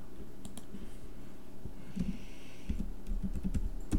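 Keystrokes on a computer keyboard: a steady run of irregular soft clicks and taps, with no voices.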